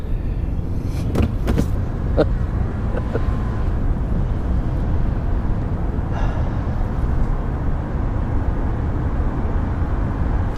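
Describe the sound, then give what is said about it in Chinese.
Car engine and road rumble as a car drives off, a steady, fairly loud low drone that holds through the whole stretch with no clear break. “哎，快开吧，快开吧， 你快点开车吧。”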